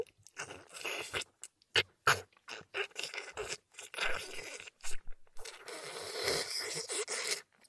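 Food being bitten and chewed: many close, crisp crunches and moist chewing noises in an uneven rhythm, with short pauses and no talk.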